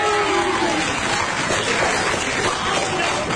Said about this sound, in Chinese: 您还鼓掌呢